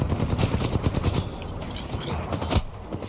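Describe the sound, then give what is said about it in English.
Submachine gun fire in the video game Titanfall 2: rapid, crackling automatic bursts packed tightly in the first second, then sparser, quieter shots with one louder crack later. “Looks like I've got some sort of SMG right now. Doesn't do a lot of damage, but pretty accurate.”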